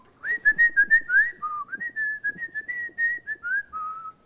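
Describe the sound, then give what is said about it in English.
An elderly Italian man whistles his own made-up tune while puttering around, a clear, fairly high melody of sustained notes with quick slides and wavering pitch, heard alone. “So just imagine a very old Italian man kind of puttering around whistling this tune.”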